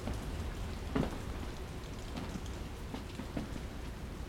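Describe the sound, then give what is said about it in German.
Rain falling in Sydney: a faint, steady patter of drops that stays soft and even throughout, with a few slightly louder taps and no voices. “Die Leute in Sydney scheinen Regen nicht zu mögen. Ich habe solches Wetter gern.”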